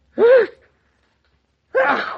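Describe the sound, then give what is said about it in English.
Two loud sneezes from a man who is coming down with a cold. Each is a sharp, voiced burst with a falling vocal tone, and a silent pause of over a second separates them. “That settles it. When a man sneezes three times, it's a cold.”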